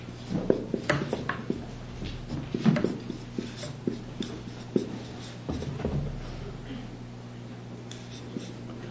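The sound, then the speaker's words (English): Writing an expression on a board: faint, intermittent scratchy strokes and light taps, with a voice speaking at times. “Let's look first at the question, what does the expression from faith to faith mean? And let me write the expression up.”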